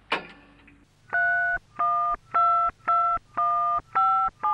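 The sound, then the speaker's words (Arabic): A telephone number is dialed on a touch-tone phone: a brief burst of noise opens, then about seven steady dual-tone beeps follow in an even, regular rhythm, clear and alone. “وعلى الفور اتصلت زينب بوفاء فقالت لها بالتليفون”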